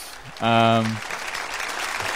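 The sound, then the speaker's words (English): A brief burst of applause, noisy clapping that follows a loud, sustained horn-like tone and fades under faint talk. “You got to give yourself an applause for that one”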